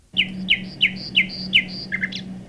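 Bird call played back from a computer when a bird's picture is clicked: about five bright, repeated chirps, each followed by a short high note, then a quicker closing flourish, all over a steady low electrical hum.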